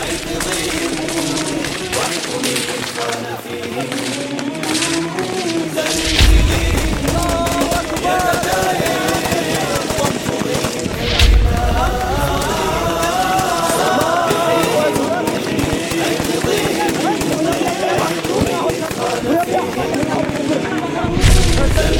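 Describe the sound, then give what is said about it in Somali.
Rifle and automatic gunfire mixed with heavy booms fills a film's opening battle scene, as fighters advance on enemy defensive positions. The shooting is dense and continuous for the whole stretch, with a man's voice talking over it. “wuxuu filmka ku bilaabanayaa taqaddumka ciidamada mujaahidiinta iyo rasaasta qoryaha ka dhacda oo sida darandoorigi oo kale ugu hoobanaysa difaacyada cadawga”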